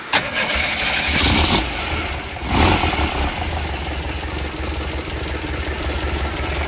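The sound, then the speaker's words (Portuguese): A car engine is started with a push button and catches with a loud burst, then settles into a steady, rumbling idle that runs to the end. “Pode dar partida para mim de novo. Só apertar o botão.”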